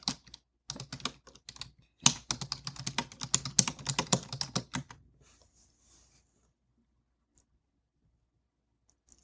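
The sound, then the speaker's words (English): Fast typing on a computer keyboard: a dense run of clicking keystrokes for about five seconds, broken by a short pause near the start, then stopping into near silence with a few faint clicks. “Let me type that in.”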